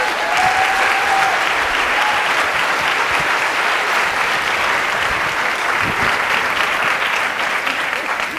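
Sustained audience applause at a school convocation, even and dense clapping that holds steady for over eight seconds.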